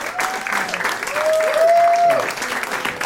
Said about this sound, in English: Please give a huge reception to Emily Thornberry.